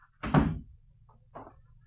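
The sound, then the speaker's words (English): A door being closed gives a quiet, solid thud, followed a second later by a fainter knock. “Close the door.”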